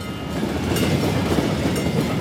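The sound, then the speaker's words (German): A train passes over a railway level crossing with a steady, dense roar of rolling wheels that holds at the same loudness throughout. “Der Bahnübergang wird ganz normal, immer wieder fährt ein Zug vorbei.”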